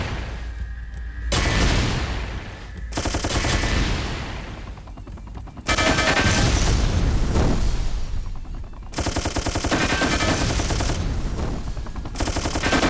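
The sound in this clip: Machine-gun fire and explosions in a base-defense video game with rockets and nukes: rapid rattling bursts alternate with heavy booms and brief lulls. It is loud throughout and densest and strongest in the second half.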